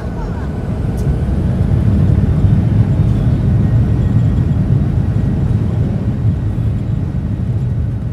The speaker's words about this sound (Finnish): Kone suuntaa Pekingistä itään.